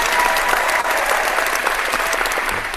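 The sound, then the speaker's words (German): Dense applause rewarding a task completed without mistakes, many hands clapping in a loud, steady, continuous wash that holds evenly for the whole stretch with no voices over it. “Aber so du hast es ohne Fehler geschafft und dafür gibt's einen Applaus.”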